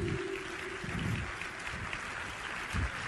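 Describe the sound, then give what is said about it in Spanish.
A church audience applauds during a sermon, giving a faint, even patter of many hands clapping that continues without a break. “Dale un aplauso a tu Señor.”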